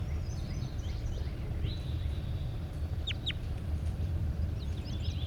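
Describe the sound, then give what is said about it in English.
A large bird calls in a few faint, brief, high cries, including two sharp chirps, over a steady low rumble. “Definitely a large bird.”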